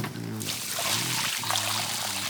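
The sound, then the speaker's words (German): Water pouring from a watering can onto garden soil makes a steady, hissing splash that runs throughout, under sustained musical tones. “Und jetzt musst du die Erde wässern. Wie mache ich das denn? Nimm doch die Gießkanne da drüben. Die habe ich vorhin erst mit Wasser gefüllt.”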